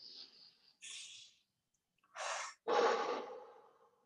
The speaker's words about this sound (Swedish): Ta ett andetag.